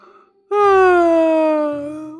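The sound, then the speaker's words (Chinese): A single drawn-out voiced yawn follows a brief faint moment, a long moaning tone that starts loud and slowly sinks in pitch before tapering off. “小盲道打着哈欠走向卧室。”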